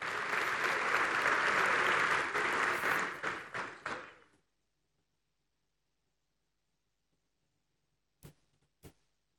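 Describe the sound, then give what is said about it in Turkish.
An audience applauds a family receiving an award on stage. Dense clapping runs for about four seconds and thins into a few last claps, then comes silence and two isolated claps. “Alkışlarımızla aile ve fedakarlık ve vefa ve ödülünü alan Demirci ailesi.”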